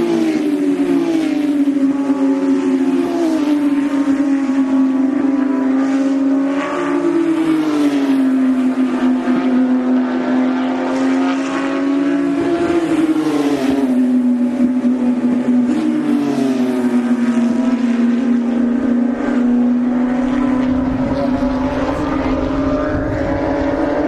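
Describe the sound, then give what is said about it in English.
Loud engine roar from Porsche racing cars passing on a street race circuit, a sustained buzzing drone rich in overtones whose pitch wavers and dips slightly throughout, with no voices over it. “Here come the Porsches. You hear some real motor sound.”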